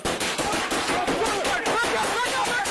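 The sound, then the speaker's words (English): A volley of gunfire on police body camera footage while deputies respond to a domestic disturbance call: many sharp, loud cracks follow in fast, irregular succession, forming a dense, continuous burst of shots. “Douglas County Sheriff's deputies faced a volley of gunfire, captured in this edited body camera footage”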